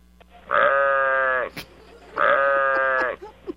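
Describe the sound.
A human voice imitates sheep and goat bleating: two long, loud, wavering bleats separated by a short pause, each trailing off into faint breathy sounds.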